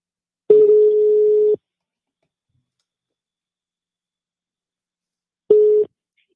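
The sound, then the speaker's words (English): Telephone tones on an outgoing call back: two steady, buzzy tone bursts. The first lasts about a second and the second is much shorter, with a long silence between them and no voices. “Let's try to call this person back. I hope it's the right number.”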